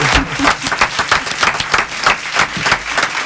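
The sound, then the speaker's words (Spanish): A small group in a studio claps to welcome a guest. The hand claps are uneven and moderately loud, coming in irregular bursts that rise and dip throughout rather than forming a smooth roar. “¿Aplausos?”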